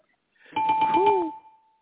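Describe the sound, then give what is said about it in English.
A short game bell sound effect: a bright ringing tone with quick pulsing strikes that lasts about a second, then fades into a thin lingering tail. “We just gonna hit the game bell on that.”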